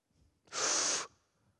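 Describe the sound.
A single deep breath drawn in by a preacher during a sermon, a loud, airy inhalation lasting about half a second and heard alone, with near silence before and after.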